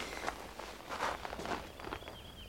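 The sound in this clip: Footsteps of a man walking into a house, heard as a few soft, quiet steps at an uneven pace. Faint rustling runs between the steps.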